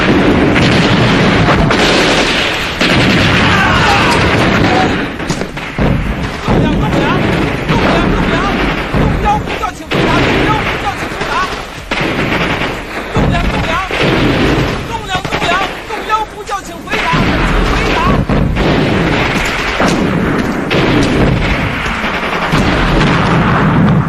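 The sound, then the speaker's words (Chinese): Artillery fire in a wartime drama about storming a city wall: heavy, loud booms and blasts roll on almost without pause, layered into a thick, continuous barrage of explosions. “命令炮兵严射击。”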